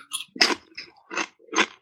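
Crunching of parsnip crisps seasoned with sea salt, a handful of sharp, crisp bites and chews in quick succession, each a brief dry crackle, with no talk.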